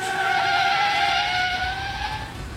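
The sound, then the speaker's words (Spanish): A car leaving a highway and pulling over to stop at a police checkpoint, its steady engine and tyre noise carrying a sustained tonal whine that dips slightly as it slows. “Juan, amor, mira, un retén. Sí, ya me voy a parquear.”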